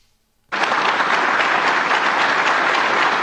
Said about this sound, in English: walks right off the stage. Crowd's not done applauding. The event isn't over.